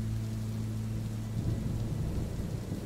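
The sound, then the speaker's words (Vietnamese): Heavy rain pours down in a steady, dense hiss with a low rumbling undertone, unbroken across the whole stretch and growing slightly fuller partway through. “tạo nên một bức màn nước khổng lồ bao phủ cả một khung trời. Mưa rơi nặng hạt”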